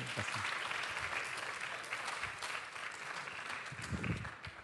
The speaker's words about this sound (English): Would you give him a warm welcome?